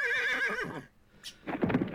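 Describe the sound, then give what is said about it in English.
A horse whinnies with a loud, quavering pitch that wavers and falls for under a second. After a short quiet gap, a rough, noisy burst follows. “Well, that's the Oko horse. That was the Oko horse.”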